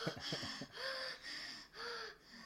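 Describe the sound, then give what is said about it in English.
A voice imitates raspy, ugly breathing: a few short rough snorts, then several long wheezing breaths drawn in a slow, steady rhythm, harsh and close, with no talk over them. “Lots of raspy, ugly breathing.”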